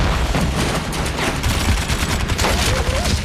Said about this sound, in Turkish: Tank savar sol cephede. Sol cephede. 15 metre solda. Yüklendi. Hazır. Ateş.